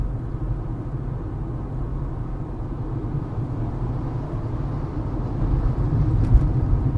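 Steady, low engine and road rumble from a car being driven holds at an even level throughout, with no voices over it.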